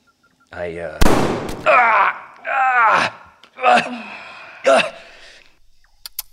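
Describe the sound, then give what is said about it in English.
Gunshot: one sharp, loud crack bursts out, followed by strained vocal bursts and gasping speech from a person in pain. “Back away from the gun, sweetheart. You shot me! But only in the leg.”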